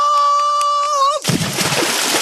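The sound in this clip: A cannonball jump into a pool at a country house near Aix-en-Provence: a long held shout cuts off into a sudden, loud burst of splashing water that turns into rough sloshing.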